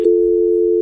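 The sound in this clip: Telephone dial tone after a caller hangs up, a single steady, loud, mid-pitched tone held unbroken for just under a second.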